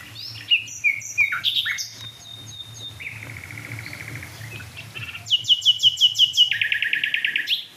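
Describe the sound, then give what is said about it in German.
A nightingale sings near dead oak trees, giving clear, loud whistled phrases and varied trills, then a run of rapid repeated notes near the end over a low background hum. “Oh, Nachtigall.”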